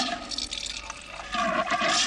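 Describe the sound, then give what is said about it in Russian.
Soda water pours into a glass in a steady liquid rush that grows louder over the second half, with no voices. “наливает газировку в стакан, собираясь пить”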